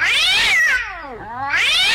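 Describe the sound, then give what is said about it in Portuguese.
A cat yowls loudly in long, drawn-out, harmonic cries. The pitch slides downward into a lower moan and then climbs back up to a high wail, with no other sounds. “Dona Chica admirou, do berro, que o gato deu.”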